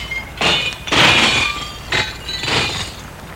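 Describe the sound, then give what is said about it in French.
A glass window pane between two offices is broken to force a way through: four harsh, crashing impacts with bright shattering and clinking of glass, separated by brief pauses. “Il essaye de briser la vitre pour entrer, pour passer dans le bureau d'à côté.”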